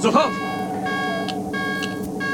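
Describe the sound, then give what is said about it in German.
An alarm sounds aboard a vessel that has been caught and is being towed, a steady multi-toned electronic blare held without pause, with a brief burst of voice at the start. “Geben Sie Alarm. Alarm!”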